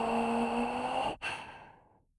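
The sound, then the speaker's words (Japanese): Deep breathing in and out during a guided breathing exercise, a long soft airy breath that breaks off briefly and then trails away slowly into quiet. “深く息を吸って息を吐いて、”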